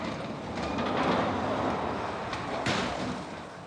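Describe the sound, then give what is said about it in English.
A ghost train ride rolling on rails on a set in Germany: a steady, moderately quiet rumbling clatter of wheels on track, with a couple of sharper clicks near the end. No voices. “Because obviously this is the real ghost train, and now we are in stage, in a set, in Germany.”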